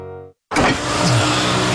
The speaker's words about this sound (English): Oh, I was just overtaking someone, officer.